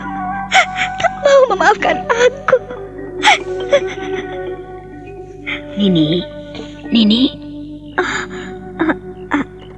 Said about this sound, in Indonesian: Kenapa, Mbok? Matamu merah, bengkak seperti itu. Ada apa menangis?